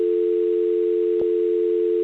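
A telephone dial tone hums as one steady, unbroken note at an even level, with a single brief click near the middle and no voices.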